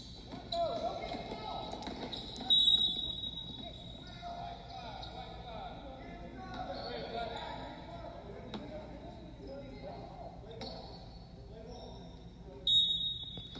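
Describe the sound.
Basketball dribbled on a court during a close sudden-death game, a steady run of bounces under excited play-by-play talk, with a couple of louder thumps standing out.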